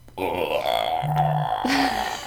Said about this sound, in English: that is the koala mating burp, as it's called. And they will do that all night.